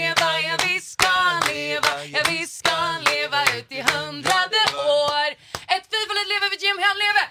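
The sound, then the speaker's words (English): An audience claps along to a Swedish birthday song, the sharp hand claps keeping a steady rhythm under loud group singing throughout. “So I need you guys to clap with me.”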